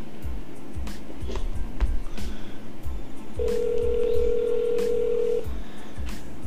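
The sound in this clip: Telephone ring tone on an outgoing call: one steady, loud electronic tone lasting about two seconds, heard over a low, thumping rhythmic background.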